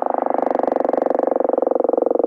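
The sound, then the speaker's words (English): A dusky gopher frog from Mississippi calling: a steady, snore-like croak made of many rapid, even pulses, heard alone at a constant pitch. “The central player in the case is the dusky gopher frog, which sounds a bit like this.”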